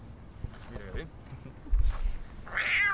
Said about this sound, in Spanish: ¡Ah, me ha mordido un gato!